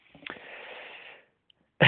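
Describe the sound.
A single audible inhaled breath, a soft airy hiss lasting about a second, followed by a short silence before a loud sound begins at the end.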